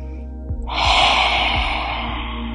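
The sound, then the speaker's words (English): A deliberate cleansing breath, drawn in through the nose and blown out through the mouth, comes through as a loud, sustained breathy rush of air lasting about two seconds. “taking a cleansing breath, which is inhaling through the nose and blowing out through the mouth. It sounds like this.”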